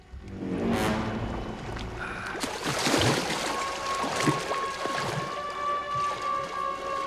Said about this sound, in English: Something splashes into the water close to Gary, who glances over his shoulder.